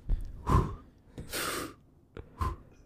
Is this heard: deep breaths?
yes

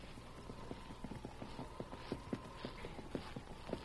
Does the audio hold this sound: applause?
no

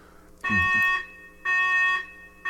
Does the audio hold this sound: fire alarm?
yes

